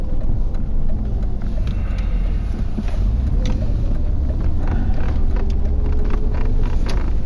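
A car driving on a road in Florida gives a continuous low road rumble and engine drone at an even level, with faint hissing wind noise over it.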